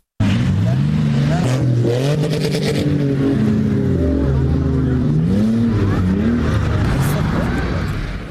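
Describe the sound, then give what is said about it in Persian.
SUVs speed over sand dunes in Kandahar, their engines revving in wavering rises and falls of pitch. Overlapping engine tones form a loud, continuous drone across the whole stretch. “موترهای شاسی بلند به سرعت تپه های ریگی کندهار را می پیمایند.”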